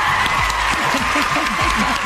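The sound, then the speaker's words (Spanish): Dense applause from many hands makes a steady, even wash of clapping that holds at one level the whole time, and a low voice sounds faintly beneath it. “Aplausos a mi comadre. ¡Aplausos!”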